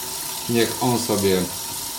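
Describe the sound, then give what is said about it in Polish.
Water runs from a newly replaced tap being tested for leaks, a steady hiss with a few short humming, tonal bursts in the middle. “niech woda sobie przeleci.”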